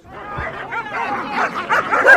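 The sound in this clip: A dog barks and yips in a run of short, overlapping calls with some whimpering tones while it asserts itself around other dogs. The sounds are fairly loud and busy throughout.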